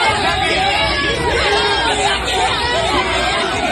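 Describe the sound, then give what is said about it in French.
Crowd noise from about 200 local supporters greeting PSG players as they arrive at their Tokyo hotel, a dense, loud hubbub of many overlapping voices that holds steady for the whole clip. “Et dès l'arrivée à leur hôtel, les joueurs sont acclamés par 200 supporters locaux. Accueil triomphal en particulier pour Kylian Mbappé.”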